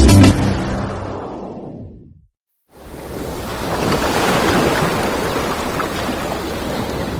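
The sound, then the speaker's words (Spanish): Ocean waves wash in as a steady, rushing surf after a fading tone and a short silence, swelling and then holding a broad, even hiss. “Breathing deeply while listening to ocean waves can help reduce stress.”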